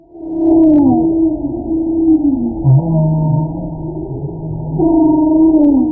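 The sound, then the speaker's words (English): Humpback whale vocalizing off the coast of California, a loud, continuous series of long tonal moans and rising and falling whoops that sweep through low and mid pitches, with a brief deeper groan in the middle. “That's the sound of a humpback whale off the coast of California.”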